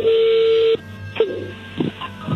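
An incoming phone call signal sounds as a loud, steady mid-pitched tone that holds for under a second and then cuts off abruptly, followed by quieter scattered noises.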